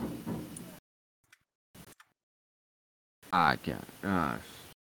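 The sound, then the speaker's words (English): Knocking on a window: a few sharp, brief raps heard alone in a quiet gap between stretches of talk. “it's knocking on the window. It's all right, though.”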